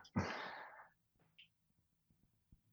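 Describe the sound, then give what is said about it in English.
One deep breath drawn by a person, a soft airy rush lasting under a second, followed by faint small mouth and body noises. “got to take a breath for that one”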